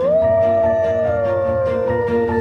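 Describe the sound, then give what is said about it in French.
Wolves howl in the Berry region of France. One long, loud tonal howl with strong harmonics holds a steady pitch, then dips slightly toward the end, with no other sound over it. “Oh, des loups.”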